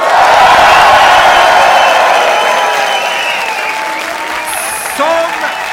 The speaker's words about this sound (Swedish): Raw i normala fall för en fullsatt publik. Det är 350 personer i lokalen som låter så här.